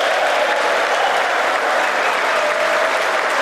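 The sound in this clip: Sustained applause from Republican legislators giving a standing ovation during Trump's address, a dense, even wash of clapping that continues without a break.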